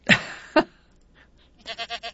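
A goat bleats: two short, sharp calls, then a longer, wavering bleat with a rapid pulsing tremble. A faint murmur sits between them.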